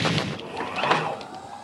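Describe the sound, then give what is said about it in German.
Sci-fi effect of a cockpit canopy closing while an energy shield powers up, a dense whooshing, humming wash of noise with a faint tonal sweep running through it. “Mit diesen Schaltungen hier kann ich einen Energieschirm um uns aufbauen und die Kanzel zufahren lassen.”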